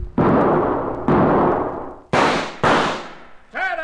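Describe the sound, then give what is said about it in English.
Four loud carbine rifle shots ring out in a horseback gunfight, each a sharp crack trailing off in a long decay, the last two close together, followed by a voice speaking at the end. “Smack out of his saddle. Nice shooting, Cherokee.”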